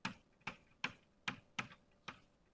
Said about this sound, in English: And let me write the equation of motion for phi like this.